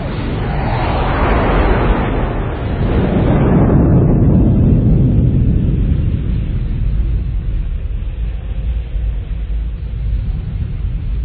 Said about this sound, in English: I think in movies a hero running away from a giant fireball.